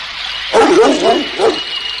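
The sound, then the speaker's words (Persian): A stray dog at a food bowl gives a few short whining yelps, rising and falling in a tight cluster over a steady background hiss. “سگ ولگردی که اون طرفا می پلکید به ظرف غذا نزدیک شد و تا عبدالله متوجه شد سگ بیشتر غذاها رو خورده بود.”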